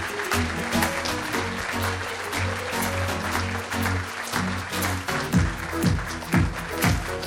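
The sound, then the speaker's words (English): Entrance music from the Jeopardy Honors blue carpet plays loudly over steady bass tones, with applause and a run of repeated falling swooshes near the end. “That was quite entrance music. I know. We took that from our Jeopardy Honors blue carpet.”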